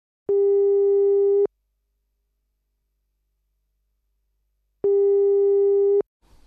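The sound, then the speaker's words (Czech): A telephone ringing tone while a call is being placed: two steady, buzzy tones of about a second each, with a long silence between them. “Takže volám Vaškovi.”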